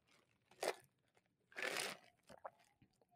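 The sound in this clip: Ice rattling in a tall iced toasted vanilla oat shaken espresso with one pump of syrup, heard as a few short crunchy, crinkly bursts with quiet gaps between them, the longest in the middle.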